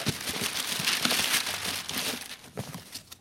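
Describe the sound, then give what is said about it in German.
Wrapping paper crinkling as a Christmas present is unwrapped, a continuous busy rustle of many small crackles and crumples throughout, moderately loud with no voices. “Also eigentlich wollte ich den ja erst zur Bescherung auspacken. Aber in diesem Fall will ich mal eine Ausnahme machen.”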